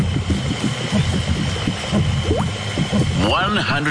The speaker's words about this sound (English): Yell out stop before that Bowser goes boom.